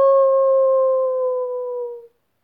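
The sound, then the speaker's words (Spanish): A voice imitates a small dog howling with one long, steady held note that stays loud for about two seconds and then cuts off abruptly. “¡Auxilio! ¡Aulló el perrito Ed!”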